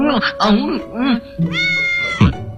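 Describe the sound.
Cat-like meowing from a mythical beast imitating a cat: a few short, arching mews, then a longer, higher whining call and a sharp closing yowl.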